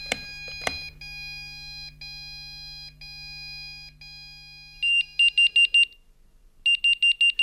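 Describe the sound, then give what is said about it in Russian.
A computer signal sounds after a task is solved: two clicks and a steady electronic tone, then two runs of rapid, high, piercing beeps. “Но он тут оставил мне на компьютере задачу. Если я ее правильно решу, прозвучит сигнал.”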